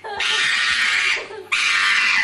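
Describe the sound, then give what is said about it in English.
A dog screams while getting its nails trimmed, letting out two long, harsh, high-pitched shrieks separated by a brief pause, both loud and unbroken. “Volume up. Some dogs don't like the nail trim. This guy, not a fan of getting the nails trimmed.”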